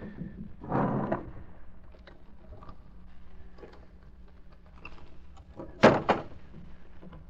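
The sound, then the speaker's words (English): A combination safe door in an inner office is opened: a muffled thud, faint clicks and rattles, then a sharp, loud clunk near the end, with no talking. “Open the safe, anyway.”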